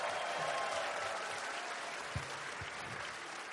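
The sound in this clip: Audience applause at a live panel event, a steady, soft wash of many hands clapping that lasts a few seconds and fades slightly toward the end.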